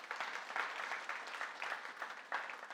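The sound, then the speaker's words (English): An audience claps in a church to welcome guests: a steady, fairly soft wash of many hands, with no break from start to finish. “Could we give them a hand of welcome”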